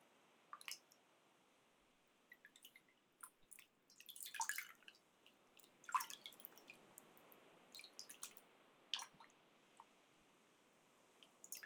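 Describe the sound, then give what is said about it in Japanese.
Hands being warmed in hot water produce faint, scattered drips and small splashes against near silence. The soft wet sounds come irregularly, with a few brief clusters of sloshing. “さっきと同じようにお湯で手を温めて、”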